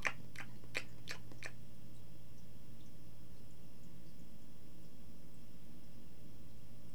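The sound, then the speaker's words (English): Gum being chewed in a radio studio gives five sharp, wet smacks in quick succession, followed by a faint, steady hum with no further chewing. “you shouldn't really chew gum in the air.”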